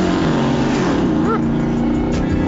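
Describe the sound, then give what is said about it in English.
A truck at a racing event roars through 8- or 10-inch exhaust pipes exiting the bed, a loud, continuous, deep engine drone that stays steady throughout. “That's like an 8 or 10-inch exhaust pipes out the back in the bed, looks like. He gone. The Bad Boy truck.”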